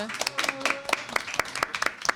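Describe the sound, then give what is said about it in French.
A small audience gives light, scattered applause for someone speaking at a microphone for the first time. The separate claps are distinct and uneven, and a voice is briefly heard at the start. “Oh là là, on l'applaudit pour sa première fois.”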